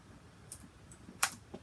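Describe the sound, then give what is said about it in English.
Keyboard typing as someone enters a search for coffee on a computer: a few faint, sparse clicks with one sharper keystroke near the end, no voices. “Let's just type in coffee here.”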